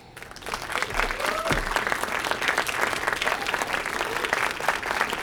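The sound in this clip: An audience applauds to welcome a television actor on stage at an event, producing steady, dense clapping that holds at full strength throughout.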